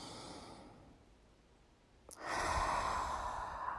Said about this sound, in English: Now when we breathe, we're just going to hold it for just a few seconds to totally observe this spot.